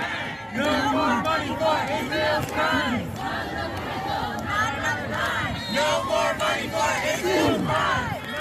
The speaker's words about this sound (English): Prior to the address, there was a protest that happened outside of the building, and I'll give you a little bit of noise from it.